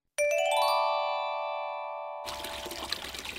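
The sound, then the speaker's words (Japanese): Famous spring water flows out abundantly in a steady, broad rushing wash that starts after a clear, bell-like tone rings out and slowly fades. “おー、名水が流れています。 そうなんです、もうふんだんにお水が出てくるでしょう。”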